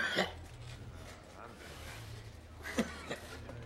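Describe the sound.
Coughing from a wounded man who is trying not to vomit while a gash on his stomach is stitched. Two short, harsh bursts sound, one near the start and one near the end, over a steady low hum.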